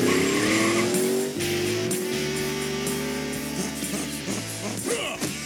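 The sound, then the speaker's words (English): Loud tire squeal and engine roar of a car skidding off the road into a ditch, with a high whine rising at the start and a continuous, heavy rumble through the whole clip. “Once again, my unmatched driving skills have caused an opponent to veer off the road into a ditch.”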